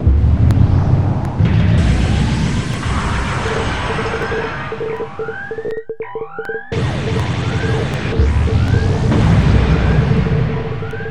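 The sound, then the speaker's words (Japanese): A rocket launches from a clearing in a video game with a loud, sustained, roaring rumble. Rising whistling tones run through it, and the roar drops out briefly midway before surging back. “よし、ここの空き地で打ち上げるか。ここに立ててと、中に入ってドアを閉める。発射ボタンはこれか。”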